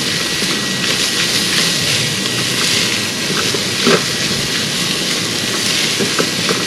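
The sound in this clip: Food sizzles loudly as it sautés and is stirred in an Instant Pot for a chickpea masala curry, a steady, dense frying hiss with a few faint scrapes and no talking.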